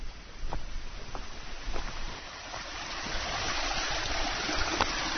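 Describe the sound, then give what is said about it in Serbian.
A cold, clear river flowing, with steady, full rushing water that builds slightly louder toward the end and carries occasional small splashes. “Hladna reka i čista kao suza. Ovi će da preteraju preko reke.”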